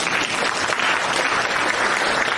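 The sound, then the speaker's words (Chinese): Audience applause, a dense and even wash of many hands clapping at a steady, fairly loud level for the whole clip. “鼓掌啊！”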